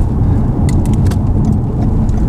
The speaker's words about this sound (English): y'all might have to deal with some of my crazy driving while we're doing this.